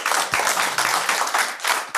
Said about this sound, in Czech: Pokud s tím souhlasíte, tak zatleskejte.